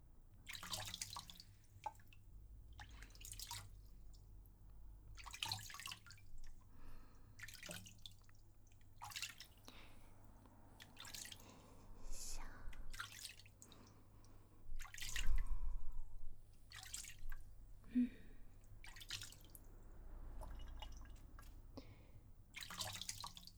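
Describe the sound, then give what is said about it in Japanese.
Water rinsing off, heard as faint, intermittent splashes and drips that come in many short bursts over a low, steady hum. “綺麗になったかな。じゃあ洗い流しますよ。”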